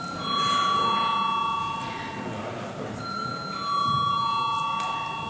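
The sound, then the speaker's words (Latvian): An electric bell rings in a parliament chamber before a vote: a sustained, bright metallic ring in two stretches separated by a brief gap, with faint room murmur beneath. “Lūdzu zvanu.”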